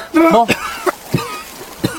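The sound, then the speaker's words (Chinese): Coughing from someone who has just choked on water after being pulled out of it, performed in an audio drama: a strained voiced sputter followed by a few short, sharp coughs. “展昭被白玉堂捞了上来，呛了两口水，正咳嗽呢。”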